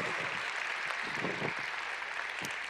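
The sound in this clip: Audience applause welcoming a guest speaker at an evening gathering, a steady, soft wash of many hands clapping that holds at an even level for the whole stretch.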